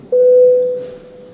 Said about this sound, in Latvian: Lūdzu zvanu.